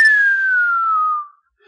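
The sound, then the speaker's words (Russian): A single sustained whistle from a person, an impressed whistle that slides slowly downward in pitch for just over a second and then fades out, heard on its own with no talk around it. “Следует присвистывание.”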